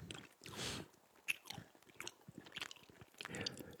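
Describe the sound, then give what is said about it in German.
Crunching and chewing of biscuits by people eating, with many dense, crisp bites and mouth noises in an irregular rhythm and no talking. “warum essen wir Kekse? Weil wir Lust drauf haben. Weil wir welche haben.”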